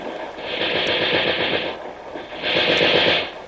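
Two short bursts of machine gun fire from a 1942 radio drama. Each burst is a rapid rattle of shots lasting about a second, and a brief pause separates them.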